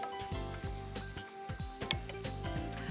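Sautéed vegetables sizzle loudly in a hot pan before going into soup, a steady bright hiss broken by repeated rhythmic scraping strokes as they are stirred.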